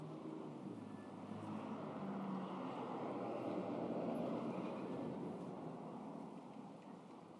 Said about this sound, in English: Yes, there are still people driving about.